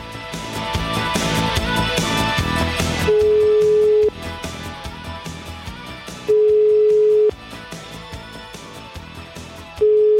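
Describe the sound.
A telephone call to a mayor rings out as three long, loud steady beeps spaced a few seconds apart, sounding over busy background music.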